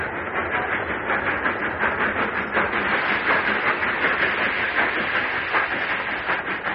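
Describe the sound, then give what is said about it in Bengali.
A boat train pulling into a station platform gives a steady, loud rumble and hiss with faint rhythmic clatter, continuous and even throughout without pauses. “অবশেষে যথাসময়ে train প্ল্যাটফর্মে এল।”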